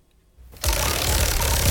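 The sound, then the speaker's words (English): A prize wheel spun for a discount giveaway starts abruptly after a near-silent moment and becomes a steady, dense whirring rattle that keeps going at an even loudness. “Let's spin the wheel.”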